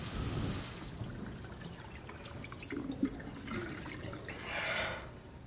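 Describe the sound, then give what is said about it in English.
Faint running tap water trickles and splashes while a flannel is rinsed under the tap at a basin. Scattered drips and small splashes sound over the soft, steady flow. “washes the flannel out under the tap and puts it on the side of the basin”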